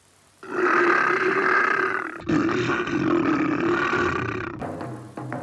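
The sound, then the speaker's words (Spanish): A cartoon lion roars at a zoo: two long, loud, rough, growling bursts, separated by a brief break, then a lower trailing rumble at the end. “Este es un león. Escuchadlo rugir.”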